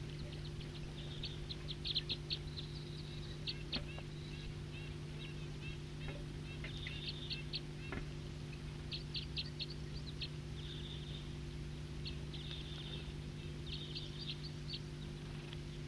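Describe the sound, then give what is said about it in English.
Wild birds sing in many short, high chirps and twitters scattered across the whole clip, fairly faint over a steady low hum. “Wild birds.”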